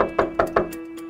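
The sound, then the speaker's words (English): Police in Panama City knocking on a door at around 3 a.m.: three firm, evenly spaced raps in quick succession over a faint steady hum. “It's around 3 a.m. when Panama City police knock on the door.”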